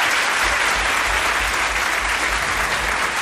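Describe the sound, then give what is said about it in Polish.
Loud, steady applause from a concert audience for a band's DJ, an even wash of clapping that stays constant throughout. “Poproszę dla niego oklaski.”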